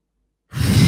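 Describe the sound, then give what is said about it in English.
A loud, breathy inhale drawn in through the nose, starting abruptly after a moment of silence and continuing steadily to the end. “I start with a long inhale in through the nose, a 6-second inhale like this.”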